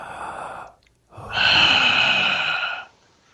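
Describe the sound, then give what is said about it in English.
A person draws a breath: a short airy exhale, a brief silence, then a louder, longer rushing inhale that fades out. “rather than delay this any further, we're going to take a quick little breath.”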